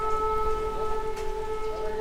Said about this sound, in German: Kurz darauf heult wieder die Sirene.